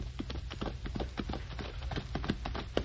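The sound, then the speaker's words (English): A horse gallops with a rider, giving many quick, rhythmic hoofbeats that pound steadily throughout at a fairly muffled, moderate level. “Boy, look at that girl ride. She's the best horsewoman I've ever seen.”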